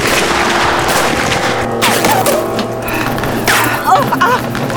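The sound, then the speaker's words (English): Gunfire from a group of outlaws sounds as a dense, noisy volley of continuous clatter and rumble, with a few sharper cracks standing out near the end. “Outlaws! Open fire!”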